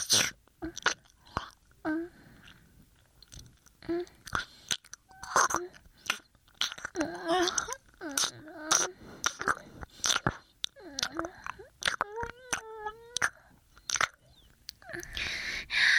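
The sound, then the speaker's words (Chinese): Wet licking and slurping mouth sounds of someone licking a person's foot and toes: many short, moist smacks and suckles in an uneven rhythm, fairly soft, with no talking. “喜欢舔主人的脚”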